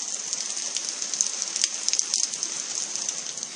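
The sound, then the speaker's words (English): Heavy rain pours outside and beats on a deck and roof, a steady dense hiss with scattered sharp droplet taps throughout and no voices. “you might hear the wonderful sound, the incredible sound of rain right now outside my room as I begin this podcast. It's pouring, and it has been for a while.”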